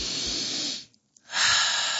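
A deep, slow breath taken in preparation to relax: two long, loud breathy hisses separated by a brief pause with a faint click, steady and unhurried.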